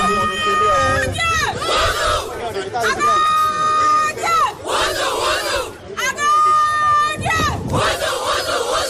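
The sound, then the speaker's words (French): Battle cry of the Benin women's U20 football team, the Amazones, shouted together in front of supporters. Many female voices chant in loud repeated bursts over steady crowd noise. “Regroupées devant le public, les Amazones U20, habillées en t-shirt blanc griffé, Pologne 2026, on y est, lancent ensemble le cri de guerre.”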